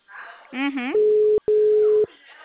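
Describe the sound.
An outgoing call's telephone ringback tone sounds as a steady, mid-pitched hum in two long stretches split by a brief break, with voices talking before and after it.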